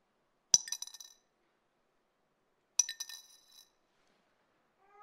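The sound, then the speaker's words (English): Two small copper coins dropped in, each landing with a bright metallic clink followed by a few quick rattling bounces. The two drops come about two seconds apart, with silence between. “You hear that? Can you hear that? She put in two very small copper coins worth only a few”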